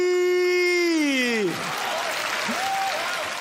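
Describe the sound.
Audience applause at a comic performance about selling spice mix, breaking out as a held sung note trails off and continuing as a steady, dense clatter of clapping.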